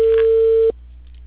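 A steady telephone line tone heard while placing a call holds at a single mid pitch for under a second, then cuts off abruptly, leaving faint line hiss.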